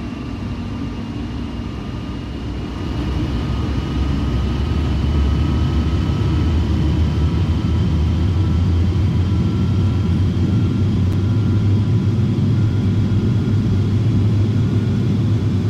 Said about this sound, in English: Release parking brakes. Parking brakes have been released. Apply takeoff thrust. Roger. Applying takeoff thrust.